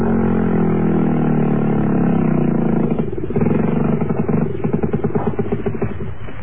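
The engines of a motor launch run at sea near coral reefs. A steady droning rumble shifts partway through into a rhythmic, chugging pulse of repeated throbs, with no voices.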